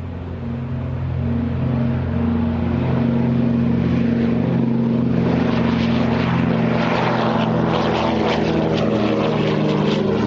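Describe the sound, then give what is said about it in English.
A C-47 / DC-3 Dakota propeller aircraft taking off, its engines a loud, droning roar. The roar swells over the first second, then holds powerful and steady with a throbbing low rumble throughout. “Dakota takeoff and DH Dragon repeats. This is a C-47 and DC-3 takeoff.”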